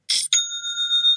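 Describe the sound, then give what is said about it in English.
A bright cash-register style chime for a new online store sale: a quick metallic rattle, a second short burst, then a clear ringing tone that holds and slowly fades on its own. “Whenever I hear that sound, things just seem to get a little better. It just makes me smile. It's the sound of another sale on Shopify”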